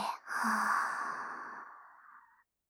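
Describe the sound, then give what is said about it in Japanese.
A single long, soft, breathy exhale that slowly trails off during a relaxation breathing exercise, with no talking. “吸って。吐いて。”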